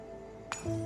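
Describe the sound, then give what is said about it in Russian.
A wine glass dropped while being filled makes a single brief, faint glassy clink against a quiet, humming background. “Пытаясь наполнить бокал, Джоан его роняет.”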